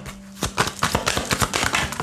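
Tarot cards handled and drawn from a deck during a reading, giving a rapid run of crisp, papery snaps and flicks after a quiet start.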